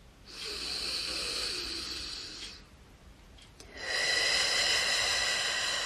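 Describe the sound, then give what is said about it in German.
Deep breathing during meditation: two long, airy breaths with a faint nasal rasp, the second stronger and louder than the first, separated by a short quiet pause. No talk. “Ich atme ganz tief in mein Herz.”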